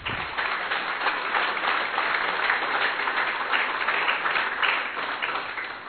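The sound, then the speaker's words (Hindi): Audience applause welcomes a woman speaker at a training session, a dense, sustained patter of clapping that stays even in loudness from start to finish. “तो दीदी जी का एक बार करतल ध्वनि से स्वागत करेंगे।”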